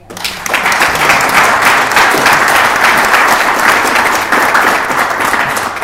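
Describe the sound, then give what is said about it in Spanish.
Applause from a crowd at a community constituent assembly in San José de Maipo: dense, steady clapping that holds loud for the whole stretch. “Por eso primero saludarlos y un aplauso para ustedes.”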